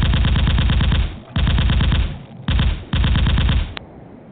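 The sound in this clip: A gunfire sound effect of hand cannons: four loud bursts of rapid automatic fire with short gaps between them, ending in a single sharp click.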